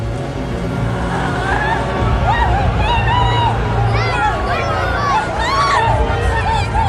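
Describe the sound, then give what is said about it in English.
A mob murmuring outside an apartment complex, a dense, continuous babble of many overlapping voices that holds at an even, fairly loud level throughout. “Karen happens upon a mob gathered outside an apartment complex.”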